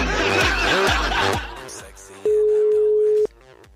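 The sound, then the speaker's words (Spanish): Ringback tone of a landline call going unanswered: one steady, mid-pitched beep lasting about a second, following a stretch of chuckling and laughter. “Estoy llamando el teléfono fijo ahí, ¿eh?”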